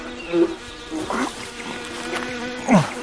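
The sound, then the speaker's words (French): Iridescent flies buzz while swarming and laying eggs on a dead body outdoors, a steady droning hum that swells louder a few times as flies pass close. “d'Everaldo et des mouches irisées bourdonnent et pondent sur lui.”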